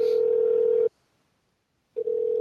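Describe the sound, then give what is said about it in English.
Telephone dial tone: a steady, mid-pitched electronic hum that cuts out for about a second, then resumes. “Somebody has in the chat room, what's a phone? That's a phone.”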